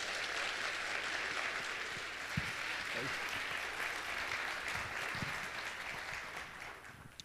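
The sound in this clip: Audience applause welcomes a speaker up for a morning Q&A session: dense, steady clapping at an even level throughout, with a few sharper individual claps standing out.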